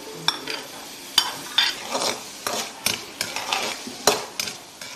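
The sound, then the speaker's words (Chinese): Blanched diced vegetables, including cucumber skin, stir-fried in a pan of hot oil: many sharp scraping clicks of a utensil against the pan come in an irregular rhythm over a soft, steady sizzle, with no talk. “将切好的丁焯水，捞出，放入油锅中爆炒。”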